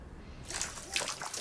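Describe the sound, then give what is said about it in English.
Shower water suddenly bursts into a splashy, hissing spray after a quiet start, and the bright sputtering continues to the end. “Sean's having a shower when his bar of soap drops down the lavatory hole in the floor.”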